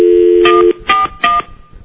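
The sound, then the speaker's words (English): Telephone dialing: a steady low dial tone holds for under a second, then three short dual-tone keypad beeps follow at a quick, even pace as a number is dialed. “All right, let me dial Brad up. Hold on a second.”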